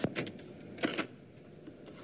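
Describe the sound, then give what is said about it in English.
Digitally encoded music data played back on a conventional tape machine gives a harsh, buzzy hiss like a home computer loading, steady throughout with a few brighter bursts. “on that conventional machine, it doesn't sound a bit like music, although that noise you can hear will be familiar to anyone who has a home computer.”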